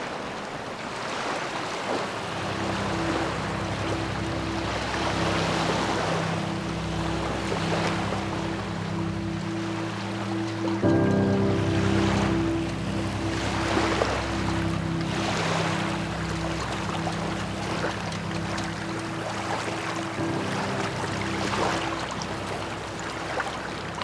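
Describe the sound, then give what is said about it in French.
Waves of a rising tide wash in a steady, broad rush with gusts of wind, a low, even engine-like drone running underneath throughout. “Quelques heures après, voici donc la marée montante.”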